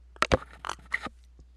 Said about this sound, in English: Let me take one last little sip of my coffee.